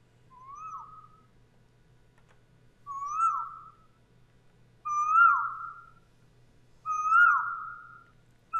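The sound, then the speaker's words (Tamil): An Asian koel calls with clear, whistled notes repeated at even intervals of about two seconds, four full calls and the start of a fifth, over a faint low hum. “குயில். இதன் இனிமையான குரல் வசந்த காலத்தின் தூதுவன் என்ற அடையாளம் அனைவரும் அறிந்ததே.”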